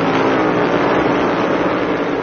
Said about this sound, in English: Bubba Wallace won the Brickyard 400 yesterday. It is his third career NASCAR Cup victory, and he's the first African-American to win a major race at the Indianapolis Motor Speedway. Here they come off of turn four.